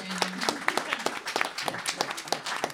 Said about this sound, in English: Nick, who deserves a round of applause for